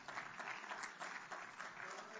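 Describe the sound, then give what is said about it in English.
Congregation clapping hands in praise during a church service, a dense, continuous patter of applause that stays faint and even from start to finish. “Can we give him a hand clap of praise this morning?”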